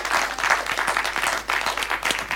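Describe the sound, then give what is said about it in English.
Applause from a group at a Christmas event: dense, steady clapping with a busy crackle that holds at an even level for the whole short stretch, with no voices over it. “Let's give them all a big round of applause.”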